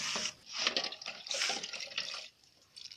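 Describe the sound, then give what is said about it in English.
Tap water runs and splashes at a sink as kitchen utensils are washed with soap, a steady rushing hiss with uneven surges that eases toward the end. “We wash utensils using soap. And she's going to wash all of them, and after she will dry them on a rack,”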